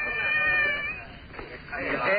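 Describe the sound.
A cat meows in a couple of drawn-out, high, fairly loud cries, the last one climbing toward the end.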